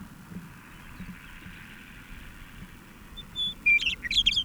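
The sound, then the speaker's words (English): A bird's polished song arrives only near the end as a quick run of high, bright chirps and trills, after a long stretch of faint low background noise. “This is the same bird with a much more polished sound.”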